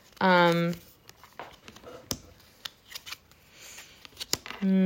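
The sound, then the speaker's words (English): Tarot cards being pulled from a deck: several sharp card snaps and soft papery rustles, with a person talking briefly at the start and end. “I'm going to pull a couple more cards.”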